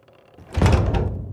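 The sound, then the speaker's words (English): The grand doors of a castle swing open with a heavy, low rumbling thud that swells quickly and then trails off, heard alone. “Follow me now, if you will. Past the gate, across the lawn, and through the grand doors of Castle Eris.”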